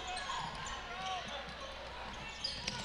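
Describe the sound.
A basketball is dribbled on the court during a game between the Pirates and Marlette, its soft thumping bounces half buried under steady crowd noise and a commentator's voice, with a couple of sharper bounces near the end.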